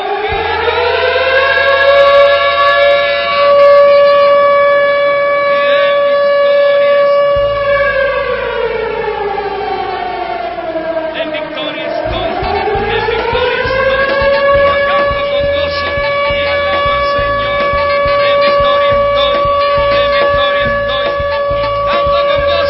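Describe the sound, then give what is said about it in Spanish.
Ambulance siren wailing loudly and continuously, holding a steady tone, sagging lower around the midpoint, then climbing back up, over a low pulsing beat. “Ahí está, llamaron la ambulancia para el diablo que está herido.”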